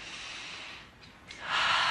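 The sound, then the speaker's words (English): A person takes deep breaths: two airy, hissing breaths, the first softer and the second louder and fuller, with no talk. “Now take some deep breaths.”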